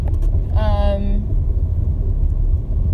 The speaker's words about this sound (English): I can't do math right now because I'm driving.